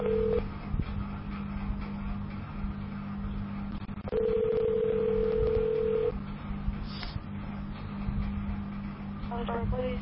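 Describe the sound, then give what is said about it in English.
A phone call to a police department is transferred to an extension. A short tone and then a longer steady tone of about two seconds sound over a low line hum, with a few quick dial beeps near the end and talk in the background. “If this is an emergency, please hang up and dial 911. If you know the extension of the person you are trying to reach, you may dial it at any... Wait while I transfer your call.”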